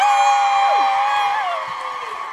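A crowd at a live show at Vicar Street cheers, with loud whistles, some sliding down in pitch. The noise fades gradually toward the end.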